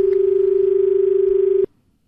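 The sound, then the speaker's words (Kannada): An incoming call sounds on a radio phone-in as a steady electronic telephone tone: one held mid-pitched note with a slight rapid pulsing, loud and alone, cutting off abruptly into near silence. “ಒಂದು ಕರೆ ಇದೆ ನೋಡೋಣ.”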